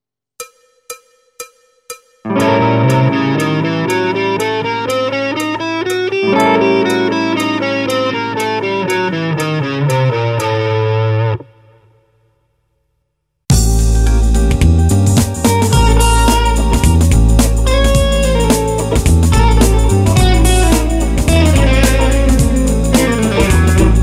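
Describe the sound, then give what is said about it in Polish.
A half-whole diminished scale played up and back down over a sustained dominant seventh flat-nine chord, preceded by a few sharp clicks. After a brief silence, a loud full band passage follows. “Następna skala, półton cały ton, zagram ją z akordem durowym septymowym z noną małą.”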